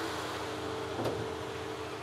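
Car engine running at a steady, even hum after a repair on an old scrap-value car, with a brief click partway through.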